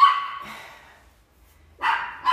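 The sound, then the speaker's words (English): Dogs bark in a few sharp, separate bursts with near silence between them. The barks are moderately loud and no talk is heard over them. “That's why the dogs are barking.”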